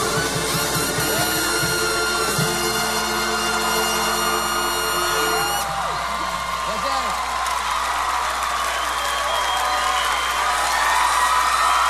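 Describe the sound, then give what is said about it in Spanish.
Audience applause: a steady, dense wash of clapping and crowd noise that stays loud through the whole stretch. “Gracias por tantos aplausos y por querernos tanto.”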